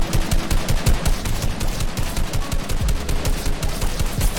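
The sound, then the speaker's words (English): Automatic gunfire in the video game Fortnite after update 12.61, many rapid shots in a steady driving rhythm, loud and unbroken, with no talking. “Guns sound a little bit different, maybe?”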